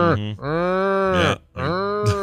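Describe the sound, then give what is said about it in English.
A person imitates a cow mooing with two long, drawn-out, low voiced moos separated by a short gap, loud and alone. “They get really mooey when they do I bet they do, yeah. Because it seems like they make that noise with any provocation.”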